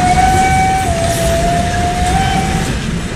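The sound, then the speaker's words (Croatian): A train whistle sounds over the constant loud rumble and roar of a moving train, a single sustained steady tone lasting about three seconds with a slight dip in pitch partway through. “Ne, ovo nije moj mladenački zvižduk. To je zvižduk vlak.”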